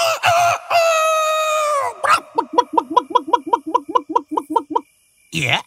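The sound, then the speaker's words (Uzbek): Rooster crowing: one long, strained, harmonic crow that sags in pitch, followed by a fast run of short repeated calls and then a final burst. “Xo'roz boy, xo'rma, sen bilan yaqindan tanishay deb keldim. Menga qara, nega tuni bilan qichqirib chiqasan?”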